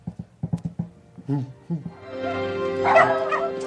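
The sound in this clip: A dog in a video gives a quick run of sharp, high barks, then breaks into longer whining yelps and whimpers that grow into a noisy, sustained cry.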